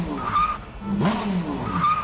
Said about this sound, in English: You don't take a race car for a drive in bumper-to-bumper traffic.